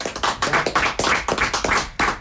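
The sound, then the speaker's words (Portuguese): A round of applause for a Portuguese guitar player at a fado venue: many sharp, uneven claps from a small group, crisp and fairly loud, with no voices. “Acabamos de ouvir na guitarra portuguesa o Nuno Zé Ezequiel. Uma salva de palmas para ele, vamos lá.”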